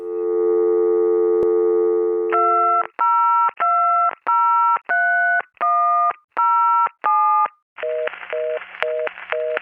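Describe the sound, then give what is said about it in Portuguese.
A telephone busy signal of rapid, evenly repeated beeps ends the sequence. Before it come a steady continuous dial tone and a series of distinct keypad dialing tones, all loud and clean with no voices. “Já tô ligando há um tempão pro João Ricardo, dá só ocupado.”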